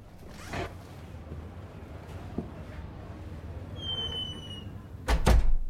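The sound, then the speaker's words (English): A door of a home is opened cautiously: a thin, high creak rises briefly over low background noise, then a couple of louder clunks follow as it swings open. “Cautiously, she opens the door to the young guy.”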